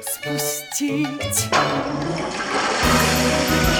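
A toilet flushes in a stage musical, a loud rushing, gurgling burst of water that starts just after a short phrase of music and keeps churning to the end.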